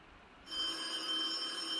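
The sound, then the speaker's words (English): A telephone rings after a brief quiet start, a steady electronic ring with bright high tones that holds at moderate level to the end. “what's that? Wait, what's that? It's a call from the NFL.”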